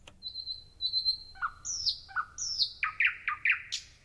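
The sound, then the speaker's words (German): Organ imitating a nightingale's song in an organ concerto with chamber orchestra: a sustained high whistle, then a run of quick chirping phrases that leap between high and lower notes, fairly faint and clear. “die Nachtigall in dem Stück wiederfinden.”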